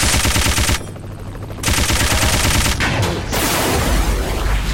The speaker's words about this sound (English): Machine gun. 100. Speed machine gun.